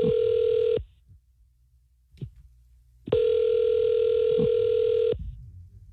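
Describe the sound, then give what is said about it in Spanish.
Ringback tone of an outgoing phone call: a steady, buzzing electronic tone in two bursts, the first cut off at the start, separated by roughly two seconds of near silence. “¿Le puedo llamar, ¿verdad? Ya está sonando.”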